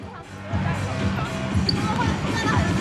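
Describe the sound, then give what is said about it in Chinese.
A basketball is dribbled on the court during a game, with repeated bounces under steady crowd hubbub and ongoing talk. “刚刚运球出了界外”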